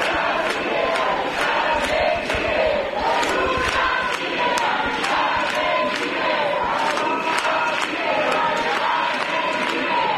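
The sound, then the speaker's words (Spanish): A seated crowd gathered near the police cordon outside the Congress of Deputies in Madrid chants loudly and continuously, with sharp regular beats marking a steady rhythm under the massed voices. “Así suenan las inmediaciones del Congreso de los Diputados, con una multitud sentada frente al lo más cerca que han podido llegar, que lo permite el cordón policial, a las puertas del Parlamento.”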